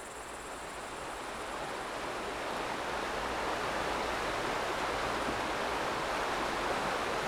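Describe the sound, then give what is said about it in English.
Steady rushing of a running stream on a quiet mountainside, an even wash of water noise that holds at a constant level throughout. “You stop and rest by a running stream, sitting down on an old log.”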